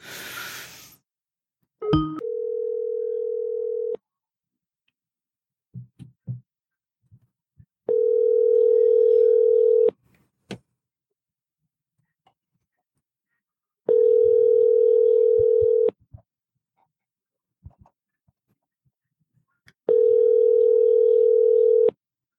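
Telephone ringback tone while a call is placed: four steady, mid-pitched tones, each about two seconds long, separated by roughly four-second gaps of near silence with a few faint clicks between them.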